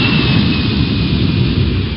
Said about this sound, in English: Williamsport Regional Airport, cleared for takeoff.